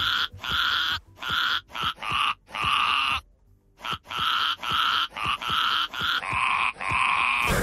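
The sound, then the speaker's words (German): A ram bleats on pasture in Eppstein, southern Hesse, in a long series of loud, coarse, grunting bleats. The calls come in a fairly regular rhythm with one short pause partway through. “Streusel ist der Schafsbock von Julia Schomburg aus Eppstein in Südhessen. So klingt er auf der Weide und so klingt er bei uns im Radio.”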